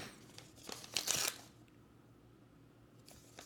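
Wrapping paper being torn off a gift: a faint, crinkly rip that swells into one brief burst of tearing near the middle, with a few smaller crackles before it, then quiet.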